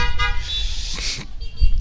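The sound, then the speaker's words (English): Car horns honk several times in loud toots, some short and some longer, following one another over a low rumbling traffic background. “I noticed that the honks are coming from the ladies that are behind the wheels.”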